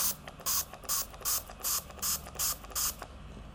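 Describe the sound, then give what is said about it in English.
An essential silver mouth spray is pumped into the mouth in seven quick, evenly spaced hissing squirts. The short bursts follow a steady rhythm over a low, faint background. “I was taking essential silver. Okay, and it's a spray. You just do it in your mouth.”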